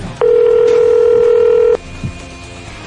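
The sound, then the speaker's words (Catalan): Telephone tones of an outgoing call: one loud, steady electronic tone holds for about a second and a half, then a quieter gap follows before another tone begins at the very end. “Va, vinga, sembla que ens anem a trucar.”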